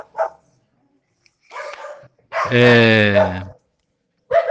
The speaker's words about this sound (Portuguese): Ó, os cachorrinhos começaram a pregar também aqui.